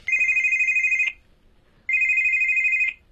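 A mobile phone ringtone sounds in two long, steady, high-pitched electronic rings, each about a second, separated by a brief silence.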